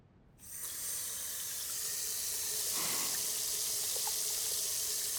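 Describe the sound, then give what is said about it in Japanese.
Tap water runs into a sink while hands are washed with soap. After a brief quiet start, the flow switches on and a steady rushing hiss continues at an even level. “洗う手が汚かったら意味ないじゃん。だから最初にしっかり手を洗うの。”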